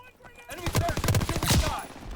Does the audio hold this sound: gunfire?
yes